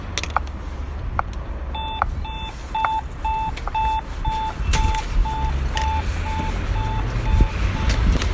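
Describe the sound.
Pedestrian traffic light signal on a city street beeping: many short, evenly spaced electronic beeps at a steady pace over low traffic rumble.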